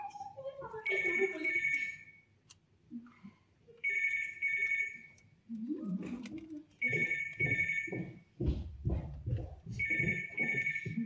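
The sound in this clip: A telephone ringing in a stage musical, heard as four bursts of bright electronic trilling spaced a few seconds apart, with voices and other stage sounds between and beneath them.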